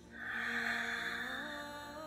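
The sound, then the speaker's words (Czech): A slow breath is drawn in through the mouth during a guided breathing exercise, a faint, soft, steady airy rush that lasts about two seconds. “A začínáš si pomalu dýchat. Nádech ideálně ústy.”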